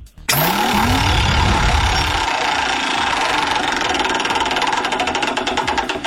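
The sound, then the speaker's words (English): A prize wheel spins for a radio game segment: a rising whoosh opens into a loud, sustained whirring rattle with rapid, even ticking that carries on for about six seconds without a pause. “Let's spin the wheel and see if we can win you a prize.”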